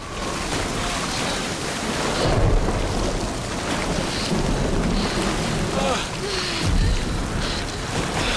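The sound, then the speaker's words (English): Thunderstorm with lightning at sea around a boat: a steady, roaring wash of waves and rain with low rumbles of thunder swelling up a couple of times. “Fork lightning explodes against the black sky. The boat is lit up.”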